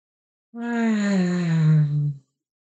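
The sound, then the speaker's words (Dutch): A meditation 'fire sound', a heart tone voiced on the exhale: one sustained low hum from a single voice, steady and even, sinking slightly in pitch before stopping abruptly. “Bij de volgende uitademing maak je de vuurklank, de hartklank.”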